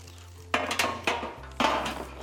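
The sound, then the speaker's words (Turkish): Metallic clanks of an oven baking tray being picked up and handled during cooking: a few sharp, ringing clatters at uneven intervals over a steady low hum, with no talk. “Biz hemen fırın tepsimizi alalım.”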